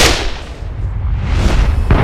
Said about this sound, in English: The men deep in the immense ship's brightly lit cargo hold paused in their work as gunfire clattered through the ship.